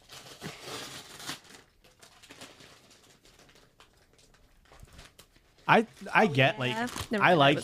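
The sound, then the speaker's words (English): Mail packages are ripped open with bursts of crinkling, tearing paper and plastic. After a quieter stretch, people talk loudly. “I think you should just be able to rip open. Don't tell me how to open packages.”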